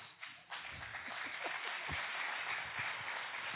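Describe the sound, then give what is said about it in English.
An audience applauds with a dense patter of many hands clapping. It rises quickly at the start and then holds steady, fairly faint throughout. “I said they're clapping for you.”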